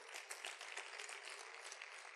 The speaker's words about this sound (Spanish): Aplauda, aplauda.